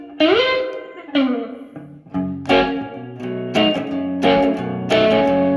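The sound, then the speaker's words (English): Electric guitar played through an effects pedal set to chamber reverb: several plucked notes and chords whose tails ring on and blend into a lingering, smeared wash between attacks. “Same controls. You got dwell, mixer, and tone on this one, and you also have a level control, which is really cool. Let's get chamber reverb. Let's see what that sounds like.”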